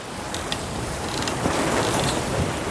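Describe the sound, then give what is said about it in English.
A sailboat moving across the water under wind power: a steady, rushing wash of wind and water, with faint creaks and clicks from the rigging scattered throughout. “You hear the sailboat there? Well, it works and moves thanks to the power of the wind.”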